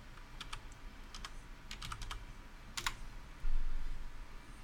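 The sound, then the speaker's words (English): Keys clicking on a computer keyboard as a search is typed. Light, quick taps come in a few short bursts over a low steady hiss. “Now, type Wolverine sword.”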